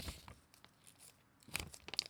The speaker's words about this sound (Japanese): 折り紙の音聞いてる？